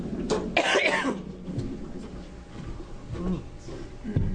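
A person coughing from a tickle in the throat: a few short, rough coughs with the strongest burst early, followed by quieter, noisy throat sounds.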